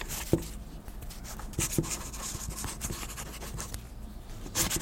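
A pen scratches across paper while a letter is written, giving a faint, continuous rubbing texture broken by a few sharper strokes.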